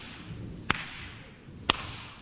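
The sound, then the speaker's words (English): Two sharp slaps of a woman's hand across a man's face, as in a movie scene, crack out about a second apart over a low, steady background murmur. “And one of those great movie sequence scenes, you know, the woman slapping the man's face”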